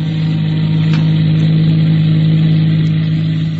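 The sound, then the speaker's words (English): A car engine runs steadily while motoring along a winding state road outside Charlottesville, Virginia, giving a constant low hum and drone at even loudness throughout, with no talk. “They're motoring, of course.”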